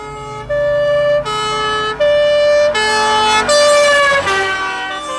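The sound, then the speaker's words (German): A fire engine's two-tone siren wails loudly, switching steadily between a higher and a lower pitch in long, even steps, with no voices over it. “Was ist das? Eine Sirene.”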